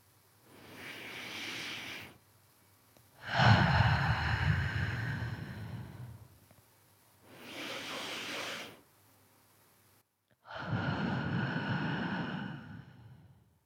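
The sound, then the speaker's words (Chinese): Slow, deep breathing, with four long, airy breaths of about two seconds each separated by short pauses, making two unhurried in-and-out cycles. The breaths are soft and rushing, and no one talks. “现在，慢慢的松开所有的力气，再做两组深呼吸。”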